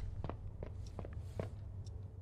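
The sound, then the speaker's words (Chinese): Footsteps of an injured character in a video game: short, uneven shuffling steps land as soft thuds in an irregular rhythm over a steady low background noise. “你们有没有觉得我的脚步声听着太近了，就感觉像小碎步，不像一个成年男子在走路。”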